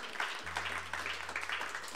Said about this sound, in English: how about one more round of applause for Amy Spies, the first half of the show?